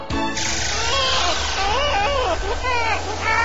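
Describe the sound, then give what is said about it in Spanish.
A baby cries in long, wavering wails during a long car journey, loud and continuous throughout, over a steady low hum. “El viaje es largo y el bebé no para de romper las bolas.”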